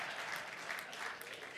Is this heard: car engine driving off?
no